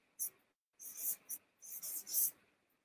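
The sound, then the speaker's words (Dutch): A pen sketching a picture on paper, with quiet rasping scratches in a series of short and longer strokes separated by brief pauses. “ik ga nog even een plaatje tekenen.”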